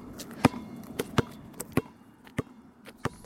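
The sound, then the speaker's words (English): People playing basketball and soccer, with a ball thumping in a loose, uneven rhythm: many sharp, moderately faint hits spaced roughly half a second apart, with no talk. “You'll also hear the sounds of people playing basketball and soccer.”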